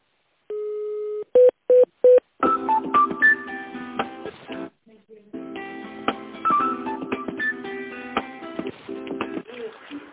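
Telephone keypad tones dialing an office extension on an automated company phone line: one longer tone, then three short beeps in quick succession, followed by a melodic tonal passage.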